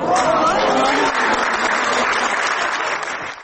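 Sustained, loud applause from an audience giving an ovation in an opera theatre hall. It holds as a dense, even roar for the whole stretch and eases slightly at the very end.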